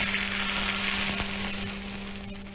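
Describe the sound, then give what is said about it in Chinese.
Hot rapeseed oil with red Sichuan peppercorns is poured over sliced kidney and chives. It makes a loud, continuous sizzle, a dense crackling hiss that eases slightly toward the end. “然后我们同时烧热100克菜籽油，油温8成热之后加入适量的红花椒，然后泼在上面即可。”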